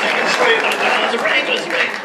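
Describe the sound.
An audience claps at a lively event honoring an elderly man. Dense, uneven clapping rises and dips in small surges, with voices mixed in.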